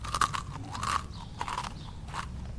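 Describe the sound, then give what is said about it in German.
Crunchy muesli being chewed from a fresh bowl, a quick series of crisp, loud crunches in an uneven rhythm with brief pauses between bites. “Wer isst denn am Abend Müsli?”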